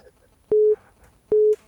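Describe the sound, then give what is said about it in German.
An incoming call alert sounds on a telephone as two short, steady beeps at the same mid pitch. Each beep starts with a sharp click, and there is a clear pause between them. “Oh, der Benny ruft an. Der Stifler. Eine Sekunde gerade.”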